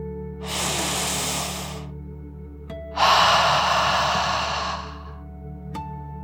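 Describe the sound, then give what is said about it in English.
Slow, deep 'dragon breath' in and then out during a soothing children's meditation: two long, airy hissing breaths separated by a short pause, the second fuller and louder than the first. “let's take one last deep dragon breath in and out.”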